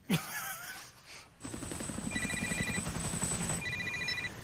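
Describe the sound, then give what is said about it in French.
Telephone ringing as a call is placed by someone trapped in a car in a stadium parking garage after an earthquake: two bursts of trilling electronic ring over a rough, crackling rumble. “Et alors là, sa fille coincée dans le parking, elle trouve enfin un téléphone et elle appelle Popo et maman.”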